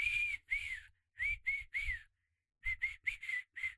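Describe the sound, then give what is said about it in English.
Someone whistles a pop song hook: about ten short, clear notes in two phrases split by a brief pause. The notes sit mid-to-high with slight pitch bends, and no one speaks. “I'm not a good whistler. Like, I don't know. I just, let me just try regardless.”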